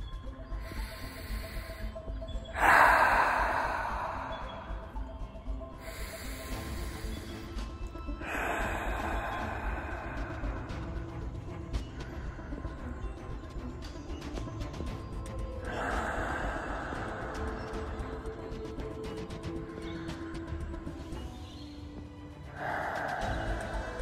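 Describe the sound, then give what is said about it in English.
Slow, calm, deep breathing, each breath a long soft rush of air, repeating a few times at an unhurried pace with quiet pauses between and no talk. “I want to start this video off with just some breathing, just some nice calm breathing to begin”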